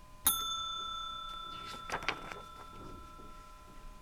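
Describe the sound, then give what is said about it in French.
A telephone rings with a single bright bell strike that rings on and slowly decays. A few faint soft clicks and rustles follow. “Le téléphone sonne encore.”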